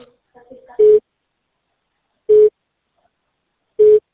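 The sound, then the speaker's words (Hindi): Telephone busy signal: three short, evenly spaced mid-pitched beeps, each a fraction of a second long, separated by silent gaps, with a few faint small sounds before the first beep. “आपके द्वारा dial किया गया number अभी व्यस्त है या इस समय उपलब्ध नहीं है, कृपया कुछ समय पश्चात पुनः प्रयास करें।”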